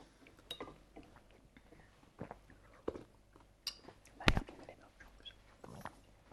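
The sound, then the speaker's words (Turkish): Someone eats spicy soup in faint, scattered sips and chewing noises, a few soft clicks and slurps spaced irregularly, with one sharper clink partway through. “O sırada ben de içiyorum çorbamı.”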